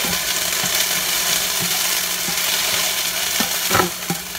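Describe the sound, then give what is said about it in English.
Mushrooms sauté in leftover oil and pork drippings in a pan where gravy will be built. A steady, bright sizzle carries on throughout, broken by a few soft knocks from stirring, with no talk. “Now I put in some mushrooms with the leftover oil drippings and pork drippings, and we're going to kind of saute these for 2 to 3 minutes.”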